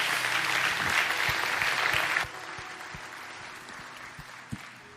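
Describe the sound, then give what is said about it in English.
A church audience claps together to welcome new members. The dense applause drops suddenly to a few scattered, separate claps that trail off. “So hey, as a church family, can we put our hands together this morning and welcome people into God's family?”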